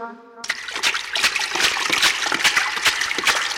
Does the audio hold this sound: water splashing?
yes